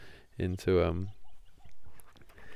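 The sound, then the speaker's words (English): Birds calling at sunrise in the Everglades: one loud, harmonic call rising out of the quiet, followed by a few fainter chirps. “Listen to the birds, as I was saying, here in the Everglades.”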